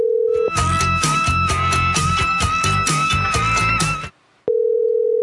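A telephone dial tone after a hang-up: a steady, even tone sounds briefly at the start, is cut off by loud music, then returns alone after a short silence.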